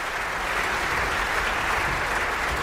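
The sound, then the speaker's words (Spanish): Audience applause at the Bayreuth Festival after a performance of Götterdämmerung: dense, loud, sustained clapping from a large crowd, steady and even throughout without breaks. “So ein Applaus bekommen hier in Bayreuth Publikumslieblinge und ist einer.”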